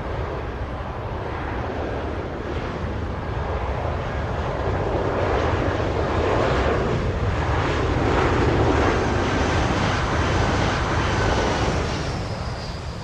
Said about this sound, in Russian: Летит самолет. Аэропорт.